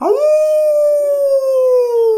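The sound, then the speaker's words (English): A person's voice imitates a wolf howl: one long, loud, sustained 'ooh' that rises sharply at the start, then slides slowly lower in pitch, heard alone. “that was a good wolf howl”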